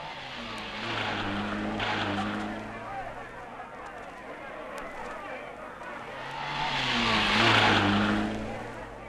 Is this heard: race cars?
yes